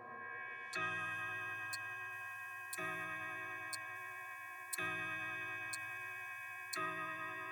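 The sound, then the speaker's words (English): A clock striking ten, with four deep bell strokes in this stretch about two seconds apart, each ringing out and slowly fading. Faint, sharp ticks fall between the strokes, and the whole passage is quiet. “the final stretch, the clock strikes 10. You've got to have that sound in there.”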